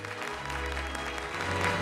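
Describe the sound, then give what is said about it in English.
Diners in a posh restaurant applaud as they stand. The clapping is a dense, steady stream of many hands that swells slightly toward the end, with a low hum underneath. “That evening, John and Gail walk into a posh restaurant. The other diners all get to their feet and applaud.”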